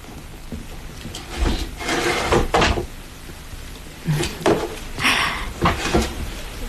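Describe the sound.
A drawer being opened, heard as a few separate wooden knocks and scraping slides with short pauses between them, moderately loud, with no voices.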